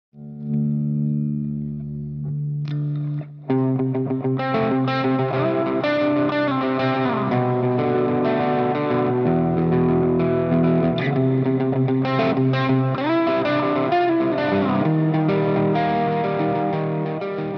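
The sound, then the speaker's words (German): An electric guitar played through distortion and chorus effects in a recording studio: a few soft sustained notes open, then loud, gritty chords and melodic lines ring out continuously. “Jetzt sind wir ja hier in deinem Tonstudio und ich sehe eine Gitarre. Hast du Bock, was vorzuspielen?”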